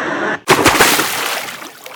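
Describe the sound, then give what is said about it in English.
A starter's gun fires once at a race start, a sharp loud crack that follows a brief hush in steady crowd noise and then trails off into a fading wash. “I love the authenticity of the starter's gun and voiceover in the background.”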